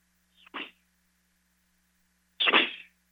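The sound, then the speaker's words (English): A golf club swing: two short, airy whooshing bursts, the second louder and longer than the first, separated by a quiet gap. “Y'all hear that? How's my dang golf swing? I just sliced it, man.”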